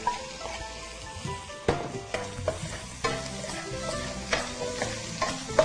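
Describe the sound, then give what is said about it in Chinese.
Salted egg stir-fried in a pan over low heat: a soft, steady sizzle broken by many scraping clicks as a spatula turns it. Faint and continuous, with no talk. “这时候呢，我们把这个咸蛋呢，好倒下去，然后翻炒哦。”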